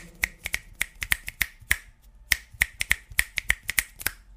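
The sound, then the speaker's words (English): Fingers snapping: many sharp, crisp snaps in an uneven rhythm, loud and alone, with a brief pause in the middle before the snapping resumes. “That was me snapping my fingers.”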